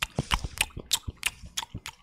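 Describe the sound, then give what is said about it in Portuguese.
A person chewing food while eating produces many soft, crunchy, moist bites in a quick, steady rhythm, fairly faint and with no talk. “Eu tô comendo, vai ser ASMR deu comendo.”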